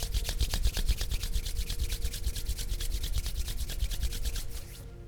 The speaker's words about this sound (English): Bring your hands together. Start rubbing your palms together to create heat.